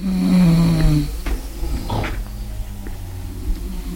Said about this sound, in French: Les ronflements de mes voisines chinoises dansent le seuil de ma tolérance. C'est le milieu de la nuit, quoi.